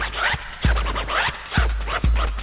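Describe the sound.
Turntable scratching cut to the beat in a rap track: quick, raspy back-and-forth scratch strokes run over a steady beat with a few heavy low thumps.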